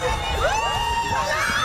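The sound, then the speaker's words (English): More than 150 students cheer at a university student association's inter-house sports day in St. John's, raising a loud, continuous crowd roar of shouts and whoops, with youthful voices yelling throughout. “That's the sound of over 150 students celebrating sports and community in St. John's”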